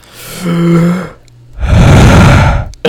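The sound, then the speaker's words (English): A deep breath, heard as two loud, rough rushes of air, a long draw in and then a long push out after a short pause, with nothing spoken over them. “I just wanted to start out this episode with... just a deep breath.”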